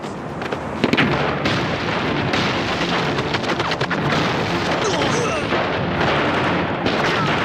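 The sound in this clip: Battle gunfire and explosions roar without a break, a dense, loud wash of cracks and booms layered over one another with no quiet gaps.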